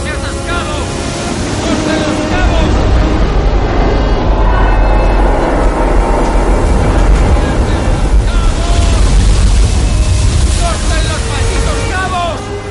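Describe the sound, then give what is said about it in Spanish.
Waves crash over the upper deck of a sinking ocean liner listing to port, a loud, continuous roar of churning water mixed with wind noise that swells after the opening seconds and holds steady. “olas baten la cubierta superior escorada a babor.”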